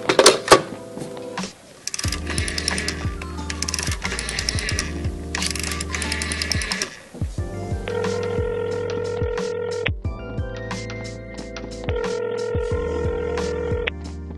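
A telephone call being dialled and ringing: steady electronic tones and repeated ring bursts sound alone, without talk.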